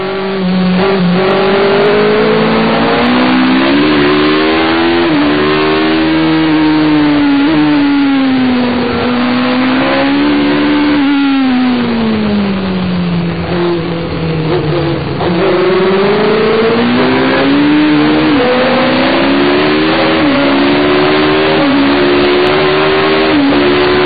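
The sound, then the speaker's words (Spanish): Onboard engine of a McLaren racing car lapping the Zandvoort Dutch Grand Prix circuit. The loud, continuous engine note repeatedly climbs through the revs and drops back at gear changes and corners, with no talk. “The Dutch Grand Prix circuit of Zandvoort. Let's ride on board with the McLaren of Patrick Tambay.”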